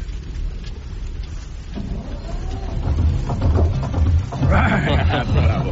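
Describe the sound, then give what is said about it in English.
An old vessel's engine starting up in a wartime film scene, a rumble that builds after a couple of seconds into a steady, low, rhythmic chugging with a noisy background. “I think your engine's ready to go, sir. You think? I can't be sure till I try her, Captain. I didn't want to try her until you said the word.”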